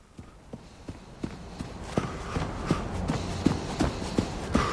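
Running footsteps with a steady, regular run of short thuds that grow slightly louder toward the end.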